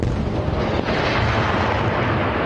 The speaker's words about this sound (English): more explosions as renewed fighting continues between Israel and Hamas.